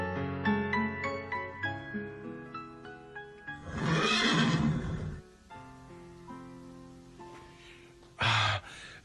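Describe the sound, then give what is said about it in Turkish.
A horse neighs in a radio drama, a long, rough, loud whinny that breaks into a stretch of plucked, ringing music. The music carries on afterwards, and a short, sharp burst comes near the end. “At hangisiydi? İşte bu. Hadi oğlum, beni kasabaya ancak sen götürebilirsin.”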